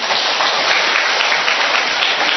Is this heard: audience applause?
yes